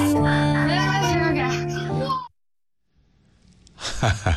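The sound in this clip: Schoolchildren let out a drawn-out chorus of envious exclamations, several high voices overlapping in a sustained sound for about two seconds. It then breaks off into near silence before voices return.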